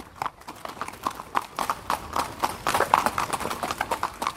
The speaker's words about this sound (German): Und dann kann es jetzt schon wieder losgehen und ich bin auf dem nächsten Pferd unterwegs.